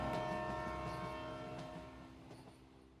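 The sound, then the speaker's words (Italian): Departing train sound effect: a sustained harmonic horn-like tone over a low rolling rumble that slowly fades across about three seconds. “Salite in carrozza, parte Espresso Indiano.”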